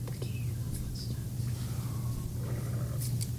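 A low, rough animal growl rumbles steadily through the whole clip as a continuous deep drone, with faint, scattered higher noises above it.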